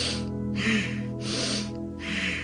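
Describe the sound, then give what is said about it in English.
Rapid, forceful Bhastrika belly breathing: four hissing breath strokes alternate with short gaps, in and out at about one second each, over a steady low musical drone. “Bastrika breathing, it's supposed to release toxins from your body, clean the lungs. In 1 second, out 1 second.”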